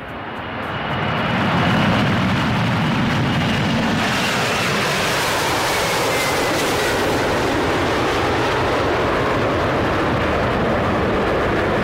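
An airplane taking off: a broad engine roar swells over the first two seconds, then holds steady and loud throughout, with no voices.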